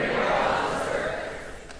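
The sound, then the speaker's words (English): A crowd shouting together on cue, a dense, loud wash of many voices that holds steady and fades slightly toward the end. “Everybody shout, "I'm here to cause a disturbance."”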